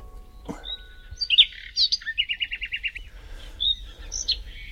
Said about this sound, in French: Alors, quand j'ai de la visite, je mets le chant des oiseaux. Et c'est comme si que c'était les poupées qui accueillaient le visiteur.